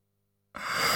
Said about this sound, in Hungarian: Ásított Zödön.